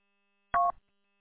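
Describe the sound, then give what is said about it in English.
A short roger beep from a UV Pro handheld radio transceiver, a single brief electronic double tone ending a transmission, alone and fairly clear. “It's probably one of your, it's the Roger beep. Is it a Bofang?”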